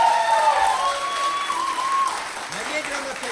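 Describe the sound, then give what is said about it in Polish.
Audience applause for a young musician who switches between guitar, bass and piano: steady, dense clapping that stays loud and even throughout, with faint tonal sounds mixed in. “No to duże brawa!”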